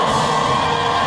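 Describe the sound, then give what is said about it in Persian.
Iranian women futsal players cheer and celebrate after winning the Asian title, a dense, continuous roar of high voices and whoops that fills the short clip at a constant loud level. “این صدای هلهله و شادمانی بازیکنان فوتسال زن ایرانی است”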